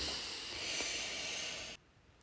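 A slow inhale through the nose during a guided breathing exercise: a soft, steady airy hiss lasting under two seconds that stops abruptly, faint overall and with no voice.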